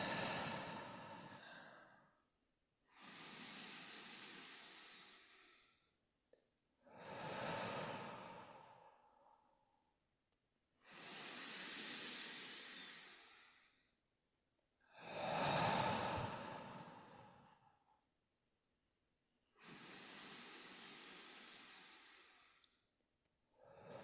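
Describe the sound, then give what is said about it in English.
Slow, deep breathing during a guided meditation: six long, soft, airy breaths, each a few seconds long, separated by short silent pauses. The breaths are steady and fairly faint, with no talking. “A few more breaths.”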